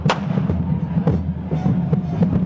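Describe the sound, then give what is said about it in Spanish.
Firework rockets exploding: many sharp bangs and crackling bursts at irregular intervals over a constant low rumble. “Esos cohetes para ellos son felicidad.”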